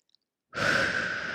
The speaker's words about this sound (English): Let's all take a deep breath